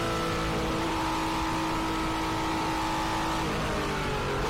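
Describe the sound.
A race car engine running with gear changes, including a short shift and a quick downshift: a fairly quiet, steady droning engine note with a few subtle pitch changes and no voices.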